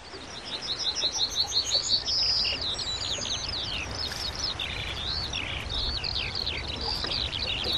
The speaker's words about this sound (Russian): птички поют